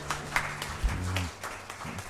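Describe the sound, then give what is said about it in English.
At a church service, a few scattered hand claps ring out in praise. They are faint and irregular, and a low voice is briefly heard among them. “hand clap of praise.”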